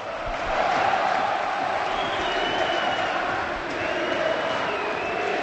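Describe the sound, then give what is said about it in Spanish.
Valencia fans chanting in the Mestalla stadium during a match: a dense, steady crowd roar carrying a sustained chant, loud throughout. “la afición del Valencia. Segundo, escuchar a Mestalla.”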